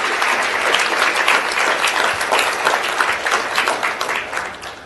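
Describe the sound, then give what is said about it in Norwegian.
Applause from a church audience for the youth: dense, steady clapping that carries on throughout and thins slightly toward the end. “Kan vi ge ungdommene en applaus?”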